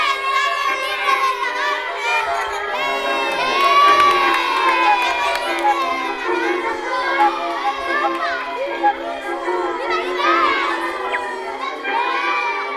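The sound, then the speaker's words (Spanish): Villagers cheer and shout with joy in a dense, continuous crowd of high voices, many of them children's, whooping and yelling for the whole stretch without pause. “El preso volvió al pueblo, donde todos sus habitantes le estaban esperando entre vítores y gritos de alegría.”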